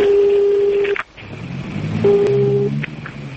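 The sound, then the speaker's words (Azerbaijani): Telephone keypad tones as a number is dialed: two steady, sustained beeps separated by a short gap. “Bakı-Baş Gömür İdarəsindən çıxan sahibkarlardan biri ilə mənim yanımda şöbə rəisinin dediyi Vidadiyə zəng elədi.”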